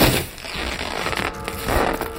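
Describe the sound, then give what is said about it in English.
A bloody scythe blade pierces and slices down through a curtain, making a rough, continuous ripping of fabric with a crackly, crunching texture. It is fairly loud and heard without talk. “The curved tip of a bloody blade pierced the curtain and sliced down it. We cowered as the scythe cut the material before pushing it aside.”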